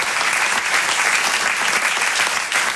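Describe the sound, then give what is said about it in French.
A comedy club audience applauds the sound, lighting and stage crews with dense, sustained clapping that holds an even, loud level from start to finish. “Comme d'habitude, je voudrais qu'on applaudisse très fort la régie son et lumière, la régie plateau, les équipes d'accueil.”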